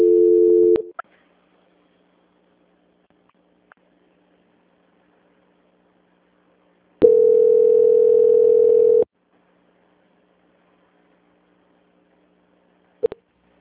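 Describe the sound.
Telephone line tones sound while a call is transferred: a short steady tone, a long silent gap, a steady tone of about two seconds, then a final brief blip, with no talk.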